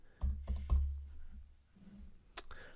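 Typing on a computer keyboard: a quick burst of three sharp key clicks, a pause, then another pair of clicks over a low, steady hum.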